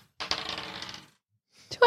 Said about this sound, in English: can I get you to roll the encounter dice twice?